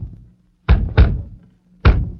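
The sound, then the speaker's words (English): Rapping knocks on a door: three heavy, dull thuds, the first two close together and the third after a short pause. “funny Ulrich don't answer the door. Let me rap. Maybe he won't answer till he knows I'm on hand.”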